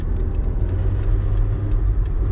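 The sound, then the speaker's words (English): A car drives along a highway with a steady low engine and road rumble throughout and no talk. “Sorry, I'm driving. And I almost missed my good ass turn.”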